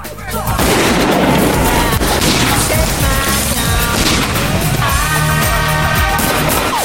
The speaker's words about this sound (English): Dave and Julian shoot at two coppers.